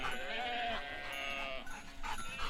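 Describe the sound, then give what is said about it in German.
A grazing herd of farm animals on a Sicilian pasture bleats in several overlapping, wavering calls, fairly faint throughout. “Halte die Herde zusammen. Aber stör sie nicht beim Futtern, sonst wird der Padrone sauer.”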